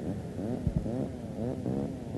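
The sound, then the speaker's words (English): A power saw cutting wood: a loud, continuous motor drone with rich wavering harmonics that bend and fluctuate in pitch as it works. “Oh, it's a power saw. Oh. They're going to cut the wood.”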